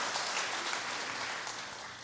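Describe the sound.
Church audience clapping, a fairly quiet but dense patter of many hands that continues evenly and tapers slightly toward the end.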